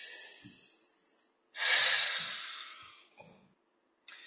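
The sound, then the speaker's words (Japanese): A deep breath is taken during a relaxation break in a quiz. One long, airy breath swells and slowly fades, with softer breath sounds before and after it. “深呼吸。”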